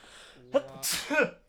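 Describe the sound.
A person's sneeze: a brief voiced intake rising into a sharp, loud, breathy burst, then a short trailing exhale.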